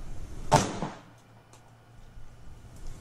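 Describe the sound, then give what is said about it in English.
One sharp gunshot, a warning shot fired by a homeowner at an unwelcome man, cracks out loud and sudden. A faint knock follows, and then it is near silent with only light background noise. “The guy got quiet all of a sudden, didn't he? His whole demeanor, he's like, oh, laughing like the Joker, called him names, and he fired that warning shot”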